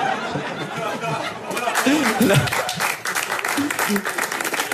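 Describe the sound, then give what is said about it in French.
Applause from a comedy show audience mixed with scattered laughter and chuckles, a steady clapping texture with voices talking over it. “C'est marrant parce qu'on sent qu'il applaudit parce qu'il est forcé”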